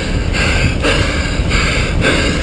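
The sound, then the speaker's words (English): Heavy, intense breathing from a wounded soldier fighting to survive after a firefight in Kabul, Afghanistan: loud, rough breaths come in a steady rhythm over dense noise, with no talk. “the intensity in his breaths.”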